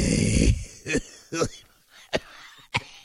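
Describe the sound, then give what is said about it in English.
A voice imitates a pipe smoker's morning wheezing: a long, rough rasping breath, then four short, scratchy wheezing gasps separated by brief pauses. “I want to hear his lungs first thing in the morning. I bet he's wheezing.”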